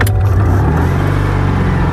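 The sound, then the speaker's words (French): A sky-blue 1970s Citroën 2CV drives on country roads through fields in the Luberon. Its small engine gives a loud, steady, buzzing drone with no voices over it. “On va prendre le volant d'une deux chevaux et parcourir les routes à travers les champs du Luberon.”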